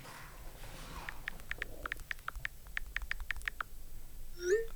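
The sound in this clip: Typing a message on a keyboard: many light, irregular key clicks in short bursts, fairly quiet over a faint background hiss.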